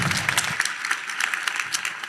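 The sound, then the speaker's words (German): Audience applause welcoming a talk, a short stretch of lively, dense clapping that carries on without a pause. “Ich wünsche euch viel Spaß bei dem Talk und gebe Lea einen großartigen Applaus für den Talk.”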